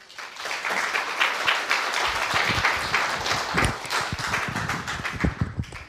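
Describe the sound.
Audience applause greeting a speaker: many sharp hand claps swell quickly into a brisk, fairly loud patter that stays steady to the end.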